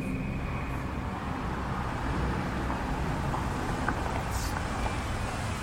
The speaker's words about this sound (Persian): فرانک میپیچه تو پارکینگ.